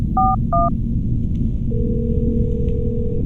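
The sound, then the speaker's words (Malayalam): A telephone call being placed: two short dialing beeps, then a pause, then one long steady ringing tone, all over a constant low rumble. “Ring ചെയ്യുന്നുണ്ട്”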